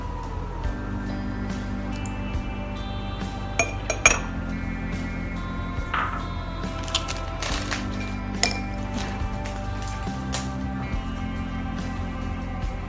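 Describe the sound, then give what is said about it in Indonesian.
Ingredients and honey being put into a glass make a few sharp, bright clinks, scattered over a steady low hum with no talking. “dan madu secukupnya. Kita masukkan semua bahan ke dalam gelas.”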